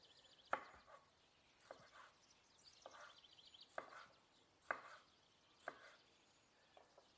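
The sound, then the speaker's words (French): Knife chopping a chili pepper into thin rounds on a cutting board: a series of sharp, crisp taps at uneven spacing, some louder than others, with no talk over them. “je rince mon piment sous l'eau, je l'essuie et je vais tailler de fines rondelles.”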